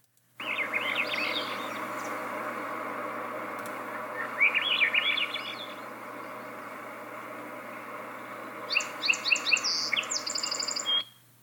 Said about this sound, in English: That was the upward spiraling flute-like sound of the Swainson thrush.